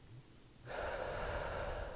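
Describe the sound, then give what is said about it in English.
A deep breath drawn in during a guided breathing exercise: after near silence, an airy inhale starts abruptly and holds as a steady, fairly loud rush of air to the end. “We are just thinking about our breath. We're going in. We're holding.”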